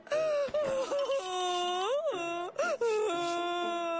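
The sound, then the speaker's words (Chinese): Loud, drawn-out wailing cry, sustained and tonal, with a pitch that wavers and swoops up and down and a few brief breaks for breath. “别哭了”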